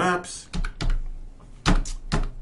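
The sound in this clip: Keys clatter on a computer keyboard as Google Maps is typed in: a few short bursts of quick tapping separated by pauses, with a voice speaking nearby.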